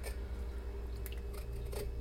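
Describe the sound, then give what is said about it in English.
A sharp knife carefully scores a very red food held under water, making a few short, faint cutting scrapes over a steady low hum. “And scoring it carefully with a sharper knife.”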